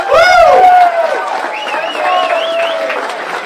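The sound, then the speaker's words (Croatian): A large crowd at a charity gathering for children in Visoko applauds, its loud, steady clapping mixed with raised voices throughout. “Veliki aplauz za sve nas zajedno!”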